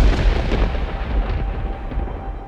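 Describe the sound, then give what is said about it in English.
A spaceship's warp core explodes in a science-fiction drama as a loud, deep rumbling roar. It stays sustained and dense, thinning slightly as it continues, with no voices. “Warp core ignition. It's going to explode!”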